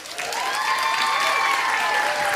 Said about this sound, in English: take a deep breath, take your left hand, smack it to the right hand, and put out the esoteric call and welcome my co-host